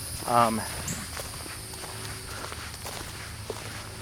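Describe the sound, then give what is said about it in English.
Footsteps of a person walking along a hiking trail, a continuous run of soft steps at an unhurried pace, with a brief louder sound near the start and a faint background hiss. “But I'm just walking so I can stop and look at things. You know, I'm doing a little bit of hiking in a very wordy way.”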